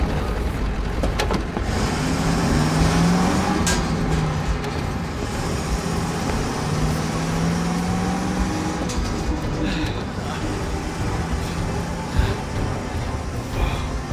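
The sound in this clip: A manual-transmission car drives off as its engine accelerates, a sustained low rumble with a broad roar that holds fairly steady over fourteen seconds, marked by a few brief knocks near the end.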